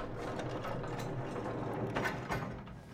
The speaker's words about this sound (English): Call the freight elevator.